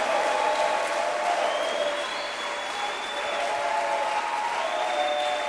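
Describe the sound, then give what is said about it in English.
A church audience on its feet clapping for a visiting bishop, sustained, even applause that runs unbroken for over five seconds at a steady moderate level. “Stand to your feet and clap your hands, great man of God.”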